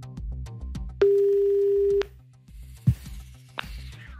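Telephone ringing tone as a listener is called in a cash-prize call-in game, one steady pitched tone lasting about a second over a low rhythmic background, followed by a couple of faint clicks.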